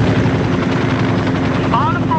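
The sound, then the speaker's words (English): An aircraft flies overhead with a loud, steady rotor-like engine drone that holds throughout, and a brief whistling tone rises near the end. “Unidentified aircraft over Bard. You're flying in controlled airspace. We have no flight plan filed on you.”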